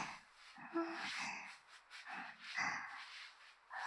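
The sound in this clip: Quick, snuffling sniffs from a pet nosing at a person's feet come in several short breathy bursts, soft and close, with brief pauses between them.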